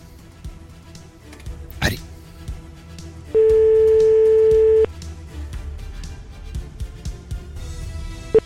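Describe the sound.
A single telephone ringback tone sounds during an outgoing call, a steady mid-pitched beep lasting about a second and a half over a low, busy background.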